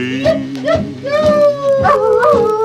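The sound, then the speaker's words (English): Lonely coyotes howling at night along the Bradshaw trail, several loud overlapping howls with wavering, rising pitch, mixed with short yips. “caballeros ride along the Bradshaw's trail and camp at night beneath the stars while lonely coyotes”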